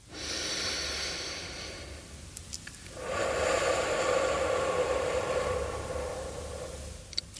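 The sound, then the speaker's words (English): Slow, deep breathing in and out, with two long, airy breaths. The first is a steady hiss of several seconds and the second is longer and fuller. There are no voices. “Breathe in. Breathe out. One more time.”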